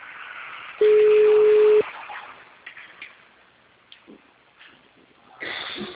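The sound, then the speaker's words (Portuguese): A ringing tone on an outgoing phone call plays as one steady, mid-pitched tone of about a second, then falls away to faint line noise and a few soft rustles. “Tá chamando, não sei se vai atender.”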